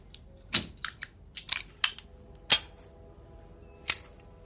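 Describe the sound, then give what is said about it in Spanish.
Cartridges clicking into a pistol magazine as it is filled at a desk: several sharp, bright metallic snaps, irregularly spaced, with the last one arriving after a short pause. “Sentado en su escritorio, rellena llena el cargador de su pistola.”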